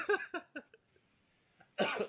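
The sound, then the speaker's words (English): A person coughs in a quick run of a few short, sharp bursts, pauses, then lets out a longer, rougher cough. “I might be sniffing and coughing all throughout the show.”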